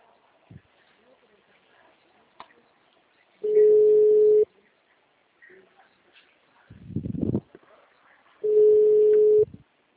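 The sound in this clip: Telephone line tone heard while a call is being placed: two steady, single-pitched beeps of about one second each, separated by a long gap, with a brief rustling burst between them.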